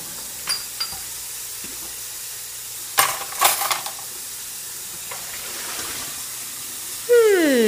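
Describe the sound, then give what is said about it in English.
Dishes being washed in a sink under a running faucet: a constant faint hiss of water with a few scattered clinks and knocks of crockery, most clustered near the middle. “That's the sound of dishes being washed in a sink with a faucet on.”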